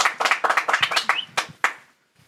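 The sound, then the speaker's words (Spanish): Scattered clapping from a small group applauding the guests at an anniversary special of a rock venue; distinct, sharp claps that start quickly, then thin out, slow and stop before the end. “Un aplauso a todos ellos. Sí, como... Un aplauso a todos nuestros invitados del día de hoy.”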